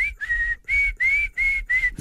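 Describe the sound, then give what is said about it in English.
A person whistling with pursed lips: several clear, steady high notes of similar pitch, each held briefly and separated by short gaps in an even rhythm, with no talking. “Can you whistle with your tongue? No, I wish I could. So, yeah, I whistle.”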